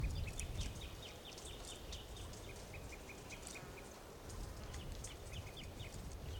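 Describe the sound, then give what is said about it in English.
Birds calling nearby, with many short, high chirps repeating in quick bursts over a faint, steady background hiss. “birds are calling and tooping nearby.”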